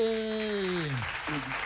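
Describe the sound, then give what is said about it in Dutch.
Faint crowd applause on a village square for the people of Ouwekerk, a soft continuous patter of clapping with a voice cheering on a long falling pitch, followed by a second, shorter cry. “Zullen we nog even een applausje doen voor alle mensen in Ouwekerk?”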